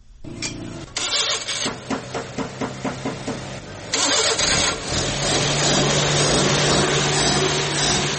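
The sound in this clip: A vehicle engine starts at a mechanics' workshop during work on its CNG fuel system: several rhythmic cranking pulses, then the engine catches and settles into a loud, steady idle.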